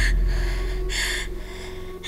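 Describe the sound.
Laboured, gasping breaths from a patient short of breath, with swollen legs and fatigue late in pregnancy. Three breathy bursts rise and fall over a steady low hum, with no talk.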